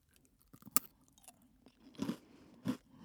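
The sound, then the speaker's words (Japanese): Crunchy snack sticks being bitten and chewed, heard as a few distinct, brittle crunches with quieter mouth sounds in between. “なんか2本ぐらい一緒に食べたらいいのかな。”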